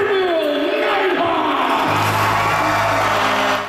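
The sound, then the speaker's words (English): Loud crowd cheering at a rink in Niverville as more than 100 people celebrate and welcome back the Nighthawks hockey team after their Centennial Cup win, a dense roar of shouts and whoops that stays strong to the end. “More than 100 people in the team rink celebrating their national champions and welcoming back the Niverville Nighthawks after their Centennial Cup win in Prince Edward Island.”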